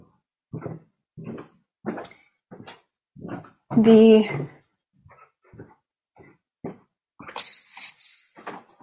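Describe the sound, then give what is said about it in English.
A dog outside barks to be let back into the house, one loud, tonal bark or whine standing out among shorter, fainter sounds while a person talks. “I'm going to just walk with you downstairs so I can bring my dog back in the house. She's barking to come inside.”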